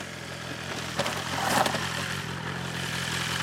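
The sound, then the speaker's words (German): A powerful motorcycle of over 200 horsepower arrives, its engine giving a steady, fairly quiet rumbling drone that swells slightly around the middle before settling again, with no voices. “Die Maschine, mit der er ankommt, hat über 200 PS und fährt locker 300.”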